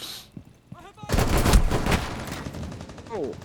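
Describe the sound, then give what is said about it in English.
Rapid video game gunfire erupts in a dense, loud burst of shots after a brief voice, then continues in quicker, fainter shots. A voice returns near the end. “I fucking shot him and he just didn't die.”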